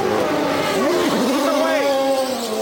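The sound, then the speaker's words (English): A race car pulling out of a pit stop during an auto race, its engine whining through rising and falling pitch sweeps, loud and continuous, with a voice talking over it. “Yeah, with Tony Kanaan just pulling out of his pit stop.”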